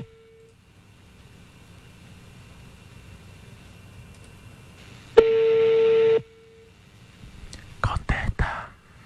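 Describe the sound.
Telephone line tone after a rejected call: a brief steady beep near the start, then a longer steady beep midway that overlaps a burst of noise, followed by a few short noisy bursts at the end.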